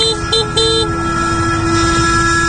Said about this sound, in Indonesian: Refleks aku memencet klakson.